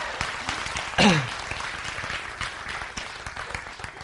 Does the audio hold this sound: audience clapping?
yes